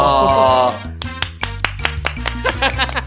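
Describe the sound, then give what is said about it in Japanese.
Hand clapping: after a stretch of speech, a few sharp, uneven claps ring out, loud and irregular in timing, with voices continuing around them. “何の拍手”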